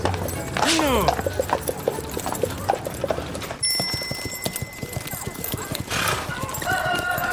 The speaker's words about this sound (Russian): на лошади скачет в Головинскую деревню